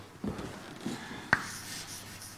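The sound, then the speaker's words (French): Writing strokes on a board during a lecture: three faint, separate scrapes, the last one sharper and brighter, with quiet gaps and no talking. “Je vais l'écrire comme quelque chose qui est proportionnel à l'aire de la membrane”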